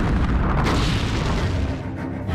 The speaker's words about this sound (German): Die Artillerie schlägt los. Flammen spucken aus unseren Stahlmäulern